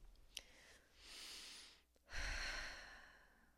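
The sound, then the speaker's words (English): A deep breath: two long, airy breath sounds, the second louder and heavier than the first, heard alone without speech. “take a deep breath.”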